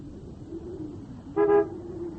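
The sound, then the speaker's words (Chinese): A sedan drives up to a house entrance with a low, steady engine hum, and one short car-horn toot sounds midway. “在板垣家门口，板垣的轿车开了过来”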